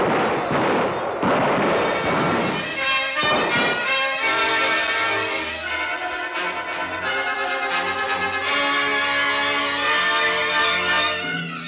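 A firing squad's volley of gunshots in a Spanish-language radio drama, as soldiers execute a peasant family: loud, rumbling blasts crowd the first few seconds, then give way to sustained dramatic music.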